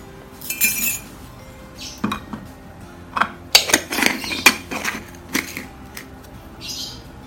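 Sharp clinks and taps of a spoon against a drinking glass as ingredients, including a teaspoon of coriander, go in: many irregular bright chinks, clustered mid-clip, over quiet background.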